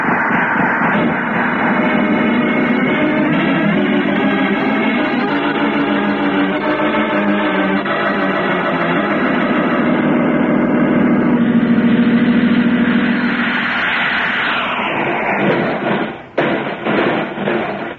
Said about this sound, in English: Great Galaxy, without power, we can't maneuver. We can't even stay in the air. They're clobberous. Keep firing, Roger. Okay. Astro, come up and help him. We'll have to take the ship in for a crash landing.